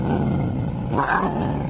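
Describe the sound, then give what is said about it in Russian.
Young lioness roar mixed with a squeak, used as a sound effect: a brief, low, rumbling growl-roar with a higher squeaky note rising out of it partway through, loud and alone. “Нам нужен не рык зрелой львицы и не писк котенка, а юношеский рык и писк, понимаете?”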